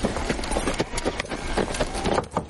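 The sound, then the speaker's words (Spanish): Steady clip-clop of a horse's hooves as it walks, led by the reins toward a house, with many even, moderately loud hoof strikes throughout. “Ella camina hacia la casa. Lleva la rienda del caballo.”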